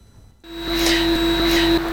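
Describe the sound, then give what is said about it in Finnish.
Air-conditioning hum in an art museum's collection storage centre kicks in after a brief quiet moment, then holds as a steady, loud drone with a low tonal hum and a thin high whine over it. “kohta siellä alkaa humina, koska siellä kokoelmakeskuksessa pitää olla ilmastointi ja kaikki lämpötilat kunnossa, siellä taide pysyy hyvänä, eli humina johtuu siitä.”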